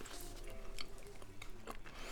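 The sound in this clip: Faint chewing of food flavoured with cheese and bonito dashi: soft, moist bites and squishy mouth sounds in a quiet, uneven rhythm.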